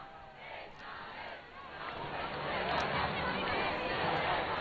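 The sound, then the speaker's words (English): Dense crowd din from people lined along a Madrid avenue giving the Pope a festive welcome, a continuous roar of cheering and many voices that swells louder through the second half. “crowds are lined up along that avenue that the Pope has slowly been making his way forward. And of course he's had a festive welcome since his arrival this morning.”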